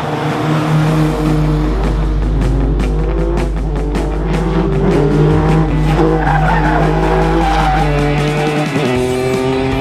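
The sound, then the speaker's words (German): Tires skid and squeal as a 670-horsepower Ferrari 488 brakes hard into a hairpin on an Italian race track. A loud, continuous engine tone with shifting pitch runs throughout alongside the screech of tires. “Ich fahre in einem Ferrari 488 über eine Rennstrecke in Italien und versuche möglichst elegant in eine Haarnadel reinzubremsen.”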